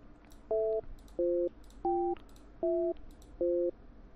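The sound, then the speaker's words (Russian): Telephone busy signal while a call is dialed: five short, evenly spaced beeps of a steady two-tone pitch, heard alone and fairly faint. “Так, сейчас еще раз одному наберем.”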